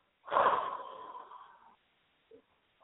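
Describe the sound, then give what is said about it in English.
One forceful exhale, blown hard through the solar plexus during a breathing exercise. It bursts out strongly, then trails off over about a second and a half, followed by a brief faint breath sound. “And exhale really hard through the solar plexus.”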